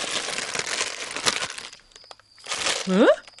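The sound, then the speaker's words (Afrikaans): A plastic packet of chocolate muffin mix is torn open, with loud crinkling and ripping in a long burst, a short pause, then a second rustling burst. “Wag, laat ek die pak oopskeer en vir my 'n muffin uithaal.”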